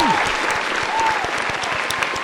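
An audience applauds to welcome two stand-up comedian guests onto a show. The clapping is steady and dense and stays strong throughout.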